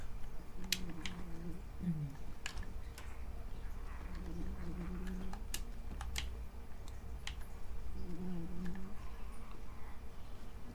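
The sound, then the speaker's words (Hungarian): Sleep murmurs from a dreaming cat: three brief, soft, low chirping bursts spaced a few seconds apart. They are faint over a steady background hiss with scattered sharp clicks. “Itt előttem, nem tudom mennyire hallatszik, hogy így álmodik a cica.”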